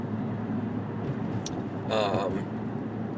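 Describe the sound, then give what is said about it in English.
Steady road hum inside a car driving on a highway at night with road work along it, a continuous low engine and tyre drone with a brief brighter burst partway through. “sorry, I'm just driving here. It's 11 o'clock at night. I don't know what it's just been constantly something on this road here, on the highway.”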